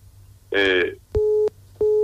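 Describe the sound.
Busy tone after a phone line drops during a call, heard as a brief voice followed by two steady, evenly pitched beeps with a short gap between them.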